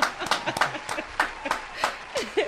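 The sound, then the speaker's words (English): Scattered clapping as a guest is welcomed on a talk show, light and uneven, with a few sharp claps spaced irregularly rather than a full ovation. “yes, this is gonna be an amazing show because, yes, keep the applause rolling.”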